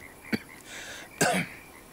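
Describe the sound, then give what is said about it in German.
An old man gives two short, faint coughs with a brief pause between them, heard alone with no talking. “Huste noch mal.”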